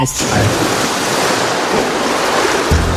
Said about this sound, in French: C'est quoi? C'est de l'eau, c'est ça, c'est de l'eau